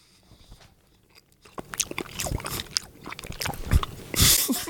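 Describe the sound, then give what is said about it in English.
Gummy candies are chewed in the mouth, starting with a quiet stretch and then many wet, squishy bites and crunchy chews that grow louder and denser toward the end. “Trying to chew up these gummies.”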